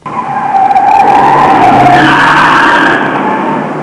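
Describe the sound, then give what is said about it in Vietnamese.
Tires screech loudly as a car corners sharply at a street intersection. The wavering squeal is sustained and rough throughout, with no break. “Chiếc xe bẻ cua thật gấp tại một ngã tư đường. Bánh xe phía sau leo hẳn lên lề đường, rồi giọng cả chiếc xe xuống đường đánh rầm một tiếng.”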